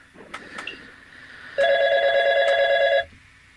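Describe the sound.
Telephone ringing with an incoming call, a single loud, steady trilling ring lasting about a second and a half that breaks in after a quiet stretch and then stops abruptly.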